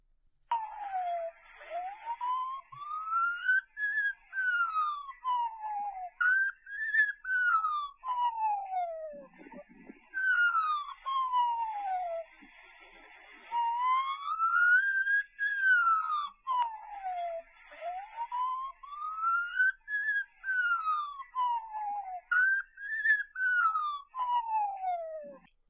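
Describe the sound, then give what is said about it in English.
A magpie imitates an emergency vehicle siren, producing clear rising and falling wails that sweep up and down in a steady cycle and repeat many times, loud and alone with no talking. “now I present the sound of a magpie mimicking an emergency vehicle.”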